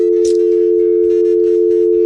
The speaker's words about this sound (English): We'll put this on and there's the dial tone there.